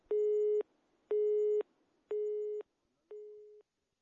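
Telephone busy signal heard after dialing a call: four steady, mid-low electronic beeps in an even on-off rhythm, each about half a second long, with the last two slightly quieter.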